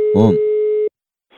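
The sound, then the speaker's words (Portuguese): A steady telephone tone sounds while a call is being placed, holding one pitch for just under a second before cutting off abruptly; a short voiced sound overlaps its start, and faint noise follows after a silence. “Vou ligar pra Olga, dizer que ela pediu uma pizza.”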